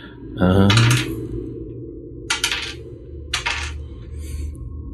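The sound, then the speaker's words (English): Dice clatter on a table during a damage roll in a tabletop role-playing game. A few short, bright rattling bursts are spaced apart, and a brief voice is heard at the start. “let us roll the damages. I didn't prep my dice.”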